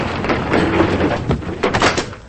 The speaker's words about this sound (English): Now, a woman with curly dark hair opens the door to a studio apartment.